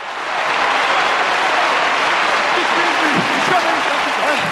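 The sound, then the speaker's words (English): Applause from a large gathering as Politburo members stand and join in: dense, continuous clapping that swells in quickly at the start, then holds loud and steady throughout, with a faint voice briefly underneath. “The General Secretary stands up and slowly joins in the applause. The Politburo stands also, and they start clapping.”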